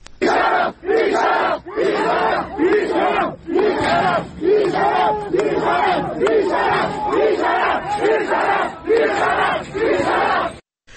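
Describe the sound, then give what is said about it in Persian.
A crowd of medical sciences students at a university in Ardabil chants a protest slogan in loud, rhythmic repeated phrases separated by short gaps, the voices rising and falling together. “صدای این اعتراض ها را از اردبیل میتونیم بشنویم.”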